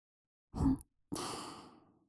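Soft breath blown into a listener's ear: a short, quiet puff, then a longer, gentle, airy exhale, with no voice.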